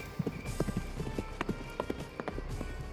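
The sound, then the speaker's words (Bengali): Horse hooves clip-clop in a steady, rhythmic run of many sharp knocks at a trotting pace. “স্বপ্নে নেতাজি এলো ঘোড়ায় চেপে”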